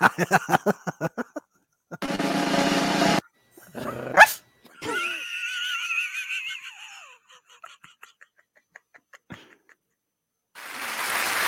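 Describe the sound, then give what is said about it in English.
A dog growls and barks in a run of bursts, some rough and rasping, others short and sharp, with brief gaps between them and no talk. “I apologize for the dog. Unacceptable.”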